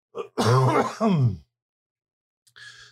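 Throat clearing: a few rough, voiced, gravelly bursts run close together, then a pause, then a shorter, fainter rasp at the end.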